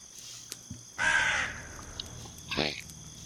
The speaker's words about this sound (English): That's literally, that was just that raven up there.